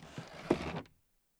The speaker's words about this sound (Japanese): 隣の椅子を引いて、もしかして私も一緒に食べてよろしいのですか？